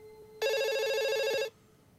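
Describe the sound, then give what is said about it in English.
An electronic telephone rings beside a bed as someone sleeps: a single bright, warbling trill lasting about a second, loud and alone against faint background hiss. “He leans over and answers the phone.”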